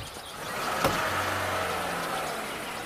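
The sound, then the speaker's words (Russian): Faint, steady low engine hum of a white car pulling away up a hill road. The sound stays quiet throughout, with a brief sharp click early on. “Автомобиль уезжает по дороге в гору.”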